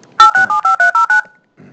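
Seven touch-tone beeps from pressing buttons on a phone keypad: short, steady two-note tones in a quick, even rhythm, loud and alone. A brief faint low thud follows.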